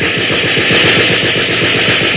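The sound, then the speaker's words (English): A loud burst of automatic gunfire from a street: rapid, evenly spaced shots rattle on continuously without a break and with no voices. “There is a burst of gunfire from the street below.”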